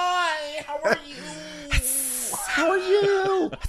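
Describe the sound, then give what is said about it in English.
A voice imitates a rattlesnake's rattle with a sustained, breathy hiss set between stretches of voiced, tonal vocalizing. “that rattlesnake, you'd always know it's coming, not only because it's rattle, but because it would be going,”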